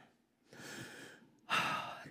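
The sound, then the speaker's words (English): A deep cleansing breath taken before a prayer, heard as two breath sounds alone: a softer, longer draw of air, then a brief pause and a louder, fuller breath out. “as they say, cleansing breath.”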